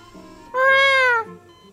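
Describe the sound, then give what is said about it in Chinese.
A cat meows once from inside a backpack, a single drawn-out, fairly loud call under a second long, with its pitch arching slightly before it fades, and soft background noise around it. “正在这时，一声不甚清晰的猫叫从吴恙背后的双肩包里传了出来。”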